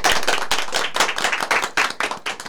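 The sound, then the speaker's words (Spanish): Applause at the close of an event with primary school students and teachers: dense clapping from many hands, steady and loud throughout, growing slightly more uneven toward the end. “Vamos cerrando ahí con un aplauso.”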